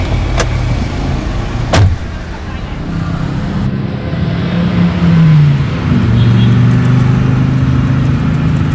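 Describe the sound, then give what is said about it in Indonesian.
A car drives off: its engine rumbles steadily, then the tone shifts as the car pulls away, with two sharp clicks early on. “Ayo naik mobil.”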